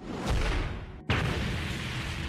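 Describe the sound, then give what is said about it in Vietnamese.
A booming explosion effect for a punch shattering a spirit-energy shield: a dense, roaring burst cuts off abruptly, then a second sharp blast strikes and sustains loudly to the end. “Tiếng nổ vang vọng, phòng hộ linh lực của dị tộc ba mắt trực tiếp bị chia lắm xẻ bảy.”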